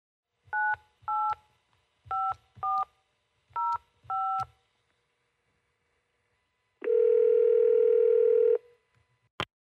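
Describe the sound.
Telephone dialing tones from an outgoing call: six short two-note touch-tone beeps in an uneven rhythm, then a long, steady, loud tone of almost two seconds, and a brief final blip.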